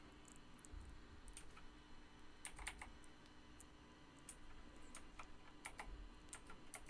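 Faint computer keyboard typing: scattered key clicks come in quick bursts over a steady low hum, with no voices.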